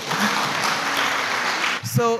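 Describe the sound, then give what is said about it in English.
Church audience clapping, a dense steady patter of applause lasting nearly two seconds before it thins out and a voice briefly takes over at the end. “I think you should clap, no?”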